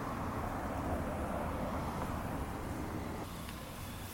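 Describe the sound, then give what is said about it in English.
A city bus arrives at a bus stop with a steady, broad engine and road rumble mixed with wind noise, easing slightly toward the end. “And here comes the bus.”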